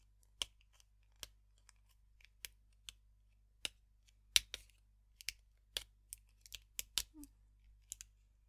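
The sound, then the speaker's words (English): Leftover foil being pulled off, heard as many faint, sharp crinkling snaps and clicks at an irregular rhythm against near silence. “There's some foil left. Let's try to pull that off too.”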